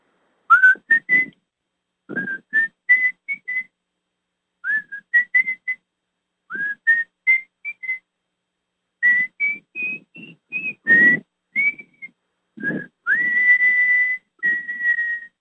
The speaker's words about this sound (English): That's what that little whistling tune is